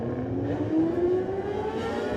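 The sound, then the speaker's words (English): A Junior 600 racing motorcycle pulls away at the start of a sport bike road race, its loud engine note climbing steadily in pitch as it accelerates, heard alone. “Darren gets away on his Junior 600 machine.”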